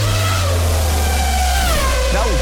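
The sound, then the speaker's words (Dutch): A race car speeds past as a racing sound effect: a steady engine drone over a heavy low rumble with thin whining tones, its pitch dropping sharply near the end as the car passes. “Ik hoorde daar iets voorbij racen. Ik vond het nog snel gaan, maar ja. Het is ook het racegeluid.”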